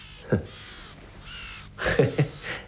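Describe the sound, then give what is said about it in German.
Two ravens give a few harsh, rasping caws in irregular succession over a hushed, breathy background, with the loudest calls bunched together near the end. “Sehen Sie? Die beiden Raben da.”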